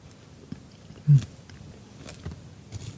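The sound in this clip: Biting into old-fashioned apple cake: one short, crisp bite stands out in near silence, followed by a few faint, soft chewing sounds, with no talking.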